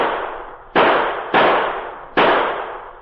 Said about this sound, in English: Those men are shooting at it!